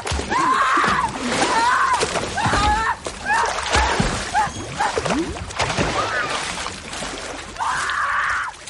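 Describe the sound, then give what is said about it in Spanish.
Splashing in a swimming pool as a woman thrashes in the water with a revolver in hand, with busy, choppy sloshes and splatters throughout and vocal sounds mixed in. “En la piscina, la pálida chapotea con el revólver apuntando al cielo.”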